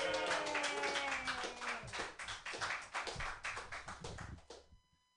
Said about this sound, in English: Your first comedian tonight. Put your hands together, everybody, for Kelly Evans.